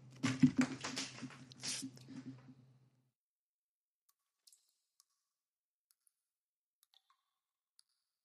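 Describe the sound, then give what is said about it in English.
A deck of playing cards being shuffled gives a rapid, crackling burst of clicks lasting about three seconds, followed by near silence broken by a few faint, scattered ticks. “Okay, you're watching on Twitch, so I got to do a real one for you. So let me just do this really quick right here. Got to give it two more shuffles.”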